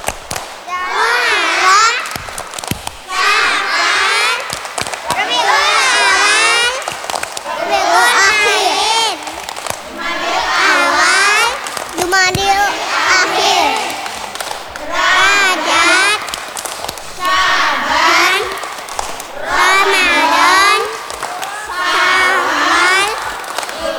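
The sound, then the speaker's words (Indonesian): Children chanting the names of the Islamic months as a clapping chant, with many evenly spaced bursts of bright group voices and a steady, repeating rhythm throughout. “Tepuk nama-nama bulan Islam.”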